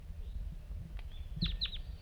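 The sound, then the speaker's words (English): Faint wild bird calls: two quick, high, downward-sweeping chirps close together over a low, rumbling background. “start recording the wild bird.”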